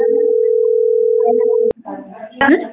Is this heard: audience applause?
no